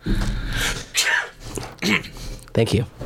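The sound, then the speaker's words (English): A person sneezes on command, a sharp burst of breath set among a few other short vocal bursts and breathy sounds. “can you just sneeze on command? Yeah. You want me to?”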